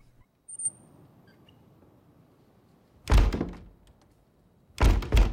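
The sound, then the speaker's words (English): A door rattling violently in two loud bursts of heavy, clattering thumps, separated by a quiet stretch with only faint low background noise. “The door rattles violently.”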